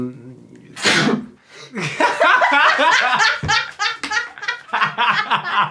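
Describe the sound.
A single loud sneeze bursts out early, followed by a long stretch of laughter and chuckling from people talking.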